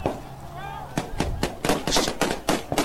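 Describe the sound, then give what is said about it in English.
Gunfire from video footage of urban street fighting, a rapid, irregular series of loud, sharp shots that starts after a brief quieter opening. “shots being fired on bridges and on rooftops, civilians trying to defend themselves”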